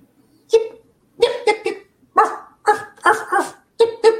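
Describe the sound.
Puppies bark at a puppy store in a quick run of many short, high yips and barks with brief gaps between them, loud and clear with no talking.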